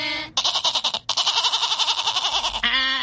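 A goat bleating in a few loud, quavering calls with a strong trembling vibrato, the longest stretching across the middle.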